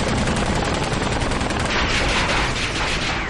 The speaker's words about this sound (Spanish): 16.000 balas de ametralladora y ni un solo rasguño.